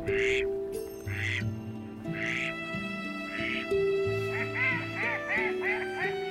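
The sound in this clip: Mallard ducks calling on a winter estuary during courtship display: a series of nasal, honking quacks, several overlapping, repeated at an uneven rhythm over a steady background.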